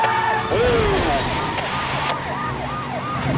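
A car speeds through an intersection at 80 miles an hour during a police chase. Loud sirens wail in repeated rising and falling sweeps over a steady engine and road roar.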